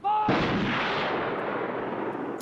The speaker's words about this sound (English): Shoot straight, you bastards! Don't make a mess of it!